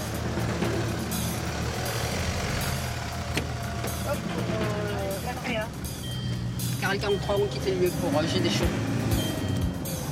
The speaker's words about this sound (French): L'ambulance des pompiers est prête à partir.